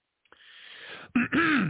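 A person clears their throat: a raspy, breathy rasp building up, then two harsh guttural bursts, loud and with no speech.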